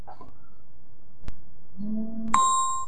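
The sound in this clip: Doorbell ringing at a country house: a faint click, then a two-note chime, a lower tone followed by a brighter, higher one that rings on with clear overtones, alone against a quiet background.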